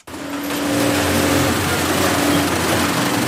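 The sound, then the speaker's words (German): Sewing machines stitching protective workwear in a factory: a motor whir starts abruptly and holds a steady, humming drone with a mid-low tonal core for about three seconds, loud and continuous. “So klingt es, wenn Arbeitsschutzkleidung genäht und hergestellt wird.”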